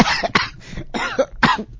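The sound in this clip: Several harsh, rapid coughs from a person choking on saliva, coming in an uneven string of rough, moderately loud bursts.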